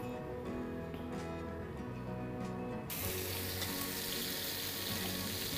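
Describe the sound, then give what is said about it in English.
Loud, steady sizzling of marinated fish being pan-seared in hot oil. It starts abruptly about halfway through, after a quieter, steady background sound, and continues as a broad hiss to the end. “So I'm just going to pan sear it.”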